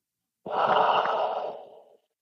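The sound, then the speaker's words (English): A single long, deep breath in is taken during a guided relaxation exercise. It is a soft, steady, airy inhalation lasting about a second and a half, heard alone with silence on either side. “One more deep breath in.”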